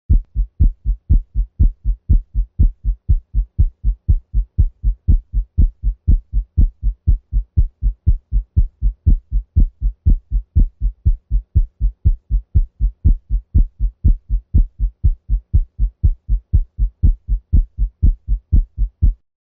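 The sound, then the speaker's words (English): Heartbeat with paradoxical second-sound splitting at a fast 120 beats per minute, a dense, regular run of low thumping beats that continues evenly and alone throughout. “The S2 split now increases during expiration and decreases with inspiration. This paradoxical splitting, as depicted in Figure 1-13, occurs with left bundle branch block and rarely with aortic stenosis.”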